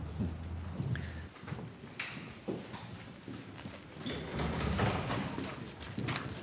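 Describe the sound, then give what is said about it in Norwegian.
Footsteps and a few dull thuds as people walk in through the large doors of Bergen Museum, the steps irregular and moderately loud against a steady background. “Vi går inn gjennom de store dørene på Bergen museum og møter professor Henrik von Nachen.”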